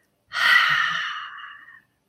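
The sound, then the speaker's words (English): An audible exhale after a held breath during a mindfulness breathing exercise: one breathy, airy release, loud and smooth, lasting over a second and tapering off alone. “And exhale, let it all out. You can make an audible exhale.”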